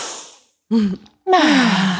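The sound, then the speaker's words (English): A deep collective breath, drawn in and let out as a group sigh: two breathy voiced bursts, the second longer with a falling, sighing pitch, after a short quiet gap. “deep breath, I know, yeah. Right? A collective inhale.”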